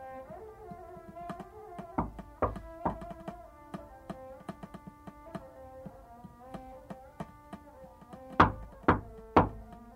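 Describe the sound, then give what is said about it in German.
Knocking on a hotel suite door: two sets of three sharp raps, one early and one near the end, sounding over sustained musical tones. “es hat geklopft. Habe ich gehört, Professor. Ja, und wollen Sie nicht öffnen?”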